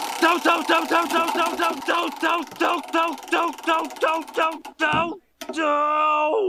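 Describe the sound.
A prize wheel spinning: a run of rapid, tonal ticking clicks that spread farther apart as the wheel slows, ending in a steady sustained tone.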